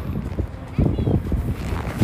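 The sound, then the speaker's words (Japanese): Wind blows outdoors in Portugal, a low rumbling buffet against the microphone that swells stronger after the first moment and stays steady. “あ風だ”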